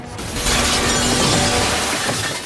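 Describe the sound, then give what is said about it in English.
Glass shattering as a man falls through a glass window: a dense, loud crash of breaking glass that fills the whole moment with a continuous, bright spray of fragments. “Another races for Alex, but she sprays him with an extinguisher and he falls through a glass window.”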